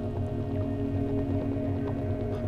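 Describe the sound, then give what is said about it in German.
Water drips from a cave ceiling lined with dripstone, a few soft, irregular drips over a steady low drone. “Tropfsteine wachsen hier tausendfach schneller als gewöhnlich. Berge und Täler tropfen von der Decke”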